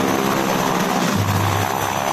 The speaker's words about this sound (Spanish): Un grupo de aviones llega desde el Palomar y arroja volantes sobre la ciudad.